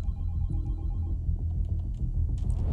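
Faint repeating ringing of an outgoing phone call to Andorra, heard over a low steady hum with no talking.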